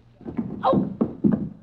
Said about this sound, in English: Open that door. Okay, here goes.